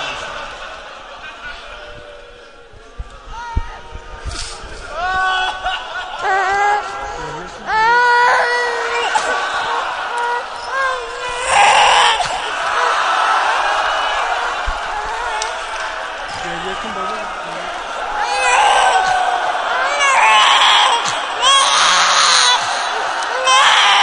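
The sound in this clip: A baby cries in a mournful religious recitation, with high, wavering wails rising and breaking over a steady bed of voices and sound, growing louder in bursts later on.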